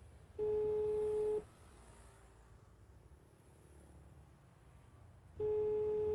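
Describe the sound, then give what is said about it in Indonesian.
Telephone ringback tone while calling: a steady mid-pitched beep lasts about a second, then several seconds of low background noise follow before the beep starts again. “Coba mak telepon lagi lah Haris kok.”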